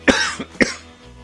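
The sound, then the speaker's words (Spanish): Two harsh, throaty coughs, each a short loud burst with a smaller catch of breath between them, heard alone with no talking. “Vaya mierda de tos.”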